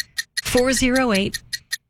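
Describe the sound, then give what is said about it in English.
Clock ticking as a sound effect, with sharp, evenly spaced ticks at the start and end. A sustained, pitched voice sounds over the middle stretch. “Why is that ticking getting faster? Do you hear that?”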